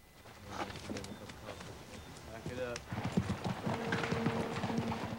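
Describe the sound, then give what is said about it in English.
Horses of a mounted Yankee cavalry troop escorting chained Confederate prisoners pass by, with many steady clip-clopping hoofbeats in a continuous rhythm while voices sound alongside. “Hutton leads his men past another mounted Yankee troop escorting Confederate prisoners in chains”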